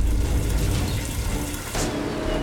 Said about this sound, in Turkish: Bir arıza nedeniyle ahırda su baskını meydana geldi.